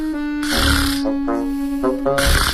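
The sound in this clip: A man who has just dropped off to sleep snores in a few harsh, rasping bursts with breathy noise between them, over a steady underlying tone.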